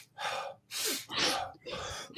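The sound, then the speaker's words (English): Quick breaths drawn in through the nose and let out through the mouth in a simple circular-breathing exercise, four airy bursts in steady alternation, each short and breathy with brief gaps between. “so it's a quick breathe in. So imagine just kind of like a suck in and then just drop out.”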